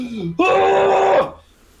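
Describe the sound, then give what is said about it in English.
A voice imitates a caveman's yell with a loud, sustained, rough cry that holds steady for nearly a second before trailing off. A shorter, lower vocal sound comes just before it. “And he's gonna let out a caveman's yell.”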